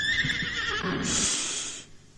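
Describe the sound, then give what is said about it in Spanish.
A horse whinnies in a corral: one loud neigh of about two seconds that begins as a shaky, quavering cry and ends in a high, breathy squeal before cutting off. “¿De quién es ese caballo que en el corral relinchó?”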